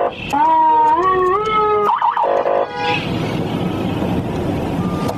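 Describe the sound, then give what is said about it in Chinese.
Vehicle horns and traffic noise from trucks and cars jammed at the east checkpoint near Shihezi after an accident: a sustained tone stepping upward in pitch, a few short honks, then a steady broad rumble of idling traffic. “又发生了意外，石河子东检查站堵车严重。 这堵得死死的。”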